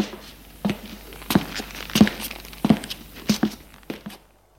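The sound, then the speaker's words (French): Footsteps of a gendarmerie officer going down stairs: a steady run of firm thuds with sharp heel clicks at an even walking pace, moderately loud, with no talking. “Quelques minutes plus tard, l'adjudant descend les escaliers”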